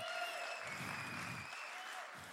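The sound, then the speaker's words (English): Audience applause greeting a guest, an even, fairly faint wash of many hands clapping that runs the whole length without a break. “Adam McKay, who, yes, you can applaud, yes.”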